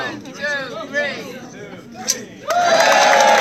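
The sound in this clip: A crowd cheers at a ribbon cutting for a new college center in Fort Bragg. Voices talk at first, then a burst of loud cheering and shouting rises and carries on steadily.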